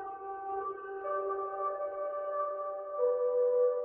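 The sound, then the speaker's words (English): A synthesizer pad holds a warm sustained chord whose inner notes shift slowly to new pitches a couple of times, swelling slightly louder near the end, smooth and continuous with no voices. “And our fourth synthesizer sound is called Distant Air, which sounds like this.”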